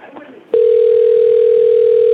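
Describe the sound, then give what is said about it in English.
Telephone dial tone heard while a caller tries to dial through: a brief low murmur gives way to a loud, steady, single-pitched hum that holds unbroken to the end. “Okay, you're going to have to hold for a moment, sir. Okay, and let me just try and dial through.”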